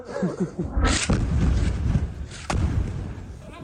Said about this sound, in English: this is the moment an attack targeted a desalination plant in the Sheikh Radwan neighborhood. A mosque was also hit.